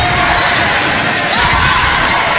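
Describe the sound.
A basketball being dribbled by a player running the clock late in a game, its bounces buried under steady, loud arena crowd noise.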